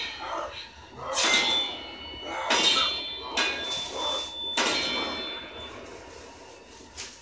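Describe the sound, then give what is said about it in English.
A steel door clangs a few times, each hit a heavy metallic bang with a ringing, bell-like tail that fades before the next one. “Damn, is that a steel door?”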